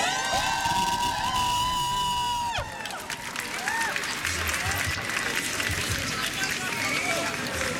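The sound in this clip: A loud protest crowd of striking students rallying against military conscription cheers, claps and shouts in a continuous, dense roar, with voices throughout and a slight drop in intensity partway before it swells again.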